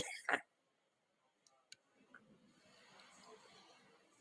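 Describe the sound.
A single sharp cough after something went down the wrong pipe, followed by a few faint clicks and a low, steady background hiss.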